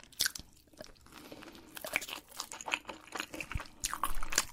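Crunchy biting and chewing from a woman eating cake for an ASMR video: many moist, crackling bites and chews follow one another in an uneven rhythm, close and fairly quiet with no talk.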